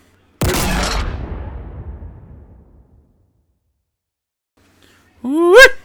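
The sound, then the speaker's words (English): The Banished Skewer weapon firing in the video game Halo Infinite: a single loud, powerful blast with a long rumbling tail that fades away over a couple of seconds. “quickly play that sound for you, and then we're going to go on to the next part, which gave me some chills and creeped me out a little bit, all right? So here is the new Halo Infinite Banished Skewer.”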